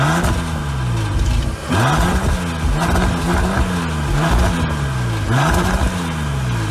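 A car with a 6-litre W12 engine accelerating hard: the engine note climbs in pitch again and again, dropping back at each of several quick gear changes, loud and with no voices.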